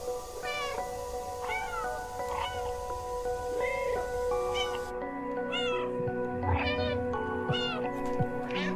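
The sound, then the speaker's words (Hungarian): A domestic cat meows repeatedly, many high, bending cries at a fairly steady pace, fairly faint, with a constant tonal background throughout. “Bocsánat, már nyávogtatom is a cicát.”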